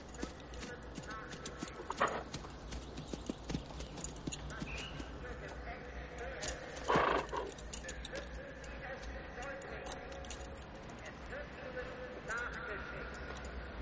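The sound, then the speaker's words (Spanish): Horse hooves clip-clop during a horseback ride up onto a hilltop overlooking a ghetto, a faint, uneven run of steps set against a dense, noisy background. “Oscar y Pronosca en su paseo a caballo llegan a un altozano sobre el gueto.”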